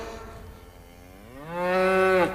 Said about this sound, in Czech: proč bučí?